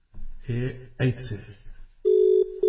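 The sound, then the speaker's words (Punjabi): Ringback tone of an outgoing telephone call: a steady single-pitched tone, briefly interrupted, that follows a few seconds of voices talking. “ਲਓ ਜੀ ਮੈਂ ਕਾਲ ਕਰ ਦਿੱਤੀ।”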